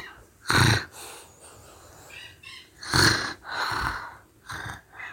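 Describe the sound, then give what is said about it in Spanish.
Snoring of a huge wolf with a swollen belly in a children's story: several loud, raspy snorting breaths alternate with quieter, airy exhalations in an uneven rhythm, with no speech. “El enorme lobo estaba con la panza hinchada, roncando y roncando.”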